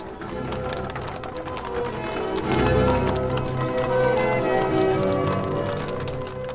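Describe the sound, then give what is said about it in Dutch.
Six horses trot, drawing a large dark-green coach through the night in northern France, a dense, continuous clatter of hooves over a low rumbling undertone with no pauses. “De zes paarden van de donkergroene grote koets zetten de rit naar de vrijheid in, maar dan al met een uur vertraging.”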